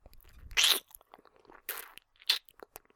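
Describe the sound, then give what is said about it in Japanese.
A mouth nibbling on an ear makes close, crisp crunching bites in three louder bursts, separated by quiet gaps with faint wet smacks. “ごめんね、じっと見てたらくわえたくなっちゃった。”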